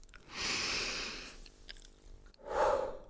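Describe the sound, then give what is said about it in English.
A deep breath: a long, airy inhale through the nose followed by a short pause, then a fuller, breathy exhale, all fairly faint and with no talk. “Deep breath.”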